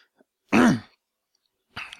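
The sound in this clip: Throat clearing: one loud, rasping burst, then a quieter pause and a second, shorter clearing sound at the end, with no talk over it.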